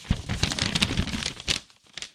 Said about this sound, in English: The envelope, please. The envelope, please. All right. I'm being handed the envelope.